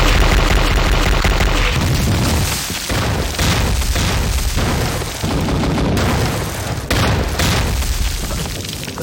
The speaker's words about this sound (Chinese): 命令，炮击，开始。